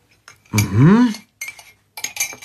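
Cutlery and dishes clink during breakfast in a kitchen: a short burst of clattering, then a few brief, sharp clinks separated by quiet gaps.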